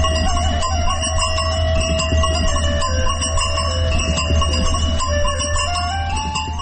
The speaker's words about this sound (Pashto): د رمې د پسونو د غاړې له زنګولو څخه خوږه شلنګه خیځي.